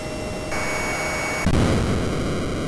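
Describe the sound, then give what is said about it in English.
Synthesized jet roar from an NES jet-fighter video game as a plane attempts to land on an aircraft carrier: a steady, loud hissing noise with faint high electronic tones and a brief surge partway through. “that was the NES Top Gun game and my attempt to land on the aircraft carrier every single time.”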